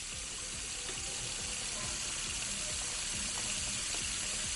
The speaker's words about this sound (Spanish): se acerca hasta el lavabo y enciende el grifo.